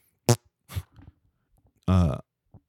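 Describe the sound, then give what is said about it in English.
A fart: a few short, sputtering blasts, then a longer, lower buzzing one and a faint final pop, separated by brief silences. “Did you just fart? What just happened? Hey, sir, where is Agent Smith? All I know is somebody farted.”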